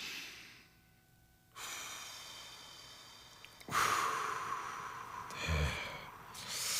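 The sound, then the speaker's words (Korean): Slow, deep breathing in and out during a guided relaxation exercise: faint, airy rushes of breath separated by quiet pauses, with the later exhale louder and longer. “4초간 숨을 들이마시고 2초간 참았다가 6초간 길게 내뱉기.”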